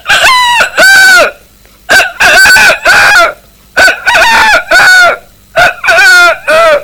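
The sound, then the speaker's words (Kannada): A person imitates a rooster calling its chicks: a rapid series of many short, clucking, harmonic calls in a lively rhythm. The calls are loud and clear, with no other talk. “ಹುಂಜ ಅದು ತನ್ನ ಮಕ್ಕಳಿಗೆ ಯಾವ ತರ ಕೂಗುತ್ತದೆ ಎಂದು ತೋರಿಸುತ್ತೇನೆ.”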